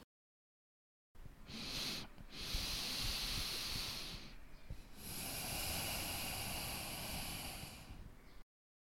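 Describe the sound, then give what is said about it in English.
Slow, deliberate breathing with a brief pause at the start of the breath. Long, airy hissing breaths are broken by short silent gaps, quiet and even, with no voice. “Did you notice that I pause for a while in the beginning of my breath? Here, listen again.”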